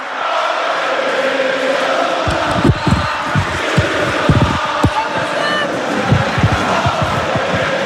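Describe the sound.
A roaring stadium crowd at Stade Bonal celebrates an FC Sochaux-Montbéliard goal that clinches the Ligue 2 title, a loud sustained roar punctuated by many heavy low booming thumps.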